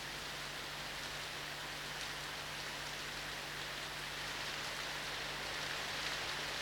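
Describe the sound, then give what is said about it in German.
Steady rain at a roadside: a continuous, even hiss of falling water with no distinct drops. It holds at a constant low level throughout, with a faint steady hum underneath. “Der Regen am Straßenrand.”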